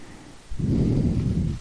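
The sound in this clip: Heavy breathing: after a quiet moment, a loud, low, rough breath sound starts abruptly and continues with a rumbling texture to the end.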